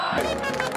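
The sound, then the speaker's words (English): Roaring crowd of football fans in a packed stadium at a match in Syria: a brief, steady, loud wall of massed voices cheering. “The roar of this crowd isn't just about the game.”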